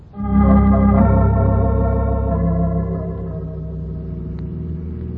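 Engine drone of a car driving out to the country: a loud harmonic rumble that swells at the start, holds steady, then eases to a slightly quieter even hum.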